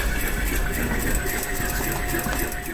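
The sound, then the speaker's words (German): Sewing machines run in a textile clothing lab at a university, making a steady, dense mechanical whir that stays at an even loudness throughout without pause. “Im Konfektionslabor wird eifrig genäht.”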